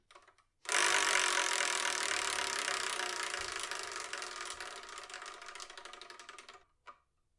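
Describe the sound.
A wheel spun to pick a number gives a rapid, loud ratcheting clatter that slowly weakens over about six seconds, followed by one last isolated click.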